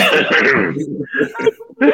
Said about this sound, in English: the best part is that nigga clears his throat before doing it